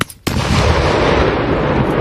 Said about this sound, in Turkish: Güvenlik kameralarına yansıyan anlarda patlamanın yol açtığı dehşet ve yolcuların can havliyle kaçışması saniye saniye görüldü.